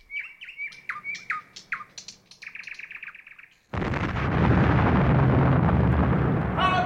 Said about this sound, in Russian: Сила поющих соловьев.